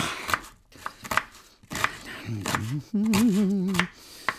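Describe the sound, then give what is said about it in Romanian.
A knife chops stuffing on a board with a few crisp, sharp knocks at uneven intervals. A wavering hummed voice joins partway through. “Să tăiem farsa.”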